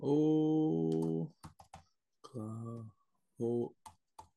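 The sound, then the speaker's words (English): Typing on a computer keyboard: a few quick, sharp key clicks in short bursts, heard between stretches of a voice. “Let me type that in real quick.”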